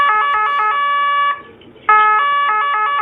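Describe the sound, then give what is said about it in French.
An Austrian police vehicle siren sounds a loud, steady, harmonic tone that breaks off briefly near the middle, then resumes at the same pitch. “Ce qu'on vient d'entendre, c'est la sirène très particulière des véhicules de police autrichiens.”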